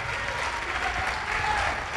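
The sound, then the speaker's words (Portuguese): A church audience applauds during a Portuguese-language worship service. Brief, dense, even clapping continues at a steady level throughout. “Vamos aplaudir mais, igreja.”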